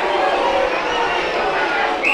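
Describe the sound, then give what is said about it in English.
A football stadium crowd reacts to a deliberate handball call with a steady, loud wash of noise that runs through the whole moment. “Well, I let the crowd do the commentary for there for you.”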